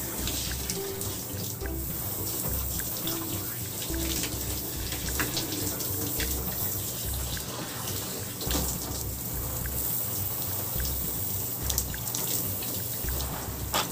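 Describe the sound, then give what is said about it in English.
Running water rinses Luxetrue soap lather off skin, a steady, fairly faint splashing stream that continues evenly throughout with no talk. “See, I just rinsed. It rinses clean.”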